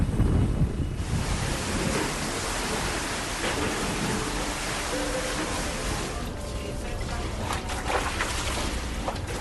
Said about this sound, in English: The water hitting my front room window,